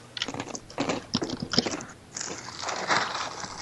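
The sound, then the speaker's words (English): Crunchy honey Cheerios cereal being chewed, with many rapid, crackling crunches in uneven bursts at a moderate level and no voices. “Those Cheerios sound delicious.”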